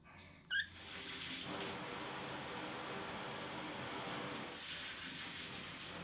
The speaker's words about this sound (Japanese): それじゃ軽く流すね。よいしょ。お湯出すね。